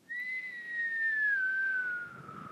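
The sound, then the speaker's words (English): A person whistles a single long, somewhat shaky note that drifts gently lower in pitch before fading out, fairly quiet and heard alone. “that's me trying to whistle. Didn't do a very good job, but you know, you get the idea.”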